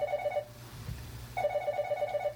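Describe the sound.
A telephone rings with an incoming call from a withheld number. The ring is a faint, rapid electronic warble that comes in two bursts with a short pause between them, and no voices are heard.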